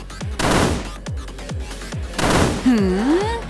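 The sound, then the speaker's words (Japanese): Video-game gunfire aimed at zombies: many punchy synthetic shots in a fairly steady rhythm, with a wavering electronic tone sweeping near the end. “ここを狙って撃つ。”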